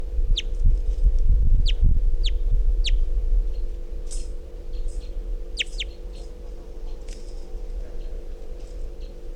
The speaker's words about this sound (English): Very weak calls. Wild bird's still here.